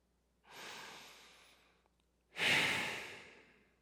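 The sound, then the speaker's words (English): A deep breath: two breathy, airy sounds, a softer drawn-in breath followed after a short pause by a louder, sigh-like breath that fades out slowly. “So let us all take a deep breath”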